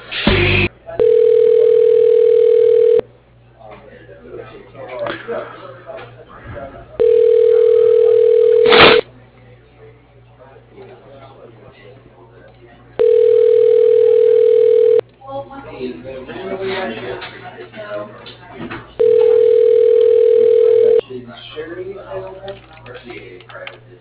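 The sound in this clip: Ringback tone on a telephone line while a call is transferred to voicemail: four long, steady, mid-pitched tone bursts of about two seconds each, separated by pauses holding faint, muffled line noise.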